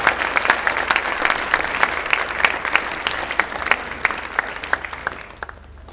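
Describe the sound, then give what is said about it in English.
A church audience on its feet applauding to welcome the next speaker: crisp, continuous clapping with distinct sharp claps throughout, dying away at the very end. “would you stand with me again to your feet, put your hands together, and let's welcome up Travis Evenden as he is our next speaker.”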